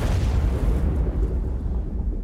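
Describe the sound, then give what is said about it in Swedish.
A type 65-76A torpedo explodes in a submarine's forward section, producing a loud, deep rumbling roar that stays heavy and sustained throughout as its upper hiss gradually thins. “En explosion inträffar i ubåtens främre del.”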